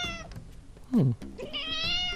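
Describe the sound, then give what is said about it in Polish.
A talkative cat held on someone's lap meows several times, with one loud, sharp cry in the middle that falls in pitch, among softer, drawn-out mews. “Kot sam z siebie gada. On jest bardzo gadatliwy.”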